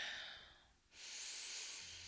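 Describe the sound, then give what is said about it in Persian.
A deep breath in during a guided new-year meditation: a long, soft, airy inhale that dips briefly and then swells into a steady hiss. “یک دم عمیق بگیرین”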